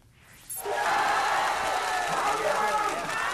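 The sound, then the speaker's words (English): Angry crowd at mass protests in Thailand erupts into a loud, continuous mass of shouting voices after a quiet half-second start and stays dense to the end. “That's the sound of mass protests in Thailand, actually. I don't have a translation, but they're angry.”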